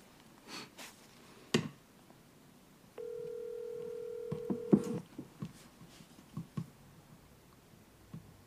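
A phone call rings out with one ringback tone, a steady low electronic tone holding for about two seconds, with faint clicks and handling rustles before and after it.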